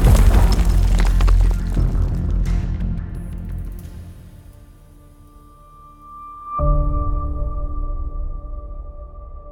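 An explosion set off in a prison cell in Panama during a rescue: a loud, heavy rumbling blast that slowly fades. A second sharp impact follows with a lingering ringing tail.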